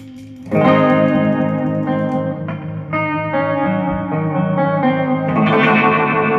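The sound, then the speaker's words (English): Electric guitar played through an MXR Univibe effect pedal, sustained chords swelling in with a wavering, pulsing modulation and reverb tail, with a few chord changes. The tone stays loud and full throughout, with no voices. “see, that's my Univibe, the MXR Univibe. And you were still at the reverb going, so.”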